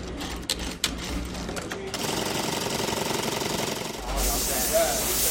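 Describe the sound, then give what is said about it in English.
Sewing machines running in a dress designer's Garment District workshop in Manhattan: a few clicks, then a steady mechanical clatter, then a loud hiss of steam on fabric near the end. “She showed us around where her dresses get stitched, the buttons put on, and the fabric steamed.”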